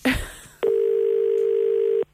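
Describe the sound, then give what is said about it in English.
A telephone ringing tone while a call is placed: one long, steady, mid-pitched ring lasting well over a second, preceded by a short burst of noise. “Question is, will Aidan be scared or will he answer the phone?”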